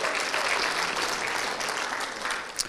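Applause welcomes the children into a church service: a steady, dense wash of clapping that holds at an even loudness throughout, without pauses.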